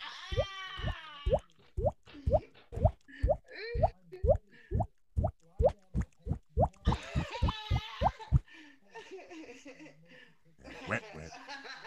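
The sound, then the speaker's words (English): Rhythmic water-drip plops repeat in a steady beat for about eight seconds: many bright, hollow drops with short pitched tails. Laughing voices sound over the start and over the end, and then the dripping stops and talk continues. “Wait, wait, the drip, drip, that drip, drip, that drip, drip”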